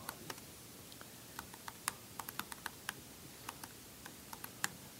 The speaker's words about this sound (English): however many I can only type so fast